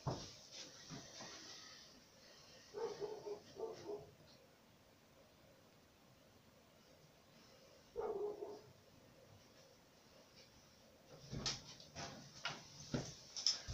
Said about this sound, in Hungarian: Ha nem hallod, hogy ugat?